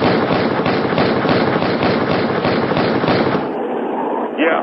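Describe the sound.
Gunfire shots crackle in a rapid, dense string of many loud reports, fired in quick succession for a few seconds before cutting off abruptly.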